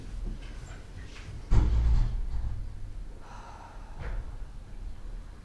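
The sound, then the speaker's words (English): A slow, deep breath taken during a guided gratitude exercise, a long airy breath that swells loudly, then softer breathing that tapers away, with no talk. “And we can all take a slow deep breath.”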